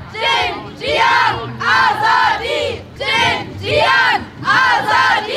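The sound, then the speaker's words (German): Protesters in the streets of Göttingen chant the Iranian slogan "Woman, Life, Freedom" in its original Persian. Loud crowd voices repeat the short rhythmic phrase again and again, swelling with each call. “So hört man den iranischen Protestslogan »Frau, Leben, Freiheit« in der Originalversion auch auf den Straßen Göttingens.”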